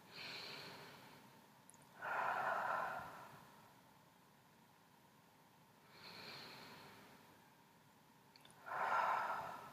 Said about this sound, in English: Taking some moderately deep breaths now.